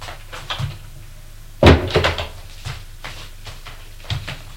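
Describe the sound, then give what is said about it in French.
A bedroom door opening as someone enters, heard as one heavy wooden thump followed by a few softer bumps and taps, with no voices. “Va frapper à la chambre de Clive. Entrez. Il entre.”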